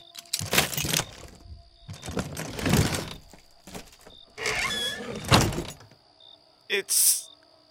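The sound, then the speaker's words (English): Squealing, scraping creaks as a coffin lid is pried open, coming in a few separate bursts of grinding friction with short pauses between them and a sharper, higher squeak near the end. “At last, we got the coffin up. You don't have to look. This is my job. I'll have it open in a minute.”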